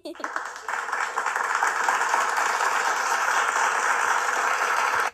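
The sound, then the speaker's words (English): Many hands clapping in dense, steady applause that holds at an even, loud level for about five seconds, then stops abruptly. “What was that sound? Hands clapping. Correct.”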